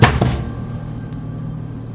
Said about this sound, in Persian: بالاخره موفق شدن و درب باز شد